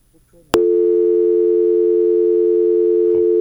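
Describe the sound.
A steady telephone tone after a dropped call starts with a sharp click and then holds one unbroken mid-pitched hum to the end, with a faint click near the close.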